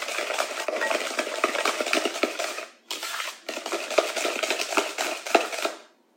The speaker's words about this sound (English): we're just gonna mix that in. And it'll get nice and creamy. And you might need to scrape your bowl.